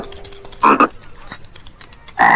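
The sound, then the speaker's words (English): Frogs croak in a few short, loud, rasping bursts separated by a quieter stretch with faint background noise. “three frogs hop out from under the bed and crouch on the carpet staring at me with large black eyes”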